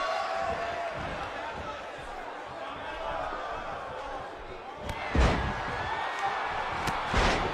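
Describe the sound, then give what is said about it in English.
A wrestler's power slam lands on the mat as a heavy thud, with a second impact a couple of seconds later. Both cut through a steady roar of arena crowd noise, and a commentator talks throughout. “With that patented power slam.”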